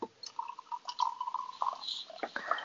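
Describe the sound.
Hot water is poured from a pot into a glass of shochu to top up a hot shochu drink. The faint liquid trickle and splash comes in uneven spurts and is heard alone.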